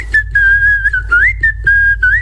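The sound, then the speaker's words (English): Whistled melody carried over a song with a low backing bass, a few long sustained notes with upward pitch slides between them, loud and clear with no talk. “Oh, you can't beat a good bit of whistling on a tune,”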